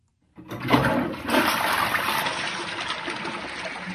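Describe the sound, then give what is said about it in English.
A toilet flushes as a pair of New Balance shoes goes down it. A sudden rush of water starts after a short silence and continues as a loud, steady gushing to the end. “That's the sound of a pair of New Balance shoes being flushed down a toilet.”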